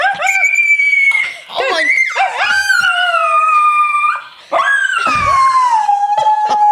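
A pet dog howls in long, high-pitched, wavering tones as if singing, a few sustained howls split by brief pauses, the last one sliding downward in pitch, loud and alone.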